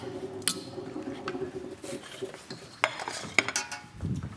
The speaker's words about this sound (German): Die Pasta gibst du in die Soße mit rein? Klar. Al dente gekocht? Ja, rein damit.